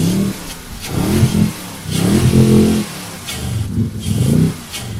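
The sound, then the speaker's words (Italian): Motorboat engine revving: a Volvo Penta marine engine built on an 8.1-litre General Motors block, rated at 425 horsepower in standard form. A low, throaty roar swells and eases several times in a row, with no voices. “Che tipo di motore ha questa barca? Monta un motore della Volvo Penta che deriva da un blocco General Motors GM da 8100 di cilindrata”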